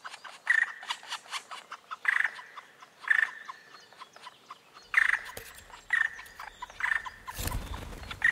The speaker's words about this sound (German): Nun wird es ernst für die Kleinen. Die Altvögel locken.